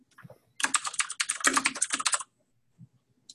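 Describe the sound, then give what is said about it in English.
Rapid typing on a computer keyboard as details for an agent are entered, with a dense run of clicking keystrokes lasting under two seconds and a few softer taps just before and after. “Enter the information for the agent.”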